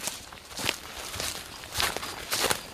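Footsteps of people walking along a mountain trail: a steady series of crunching steps with a few louder footfalls standing out, heard alone with no talk.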